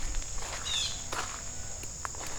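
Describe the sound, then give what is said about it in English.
Soft footsteps tread down a muddy creek bed, a few faint squelching steps set against a steady high insect buzz and low background hiss. “walking up, or walking down the creek in the creek bed”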